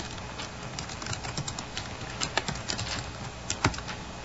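A few letters typed on a computer keyboard make faint, irregular clicks and taps that are spaced unevenly and stand out from a soft background hiss.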